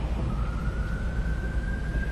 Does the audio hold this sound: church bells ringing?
no